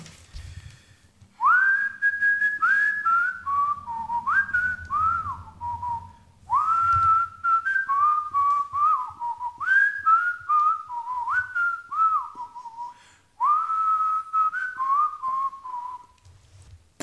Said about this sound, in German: Okay, ich pfeife dann.